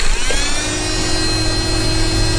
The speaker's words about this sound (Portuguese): estava sendo ligar uma ventoinha portátil. Uma ventoinha portátil? Como assim? Sim, uma ventoinha daquelas de mão